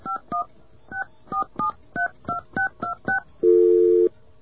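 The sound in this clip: Touch-tone dialing on a telephone: about ten short, crisp dual-pitched beeps in an uneven rhythm, followed by a longer, steady, louder tone, with no talking.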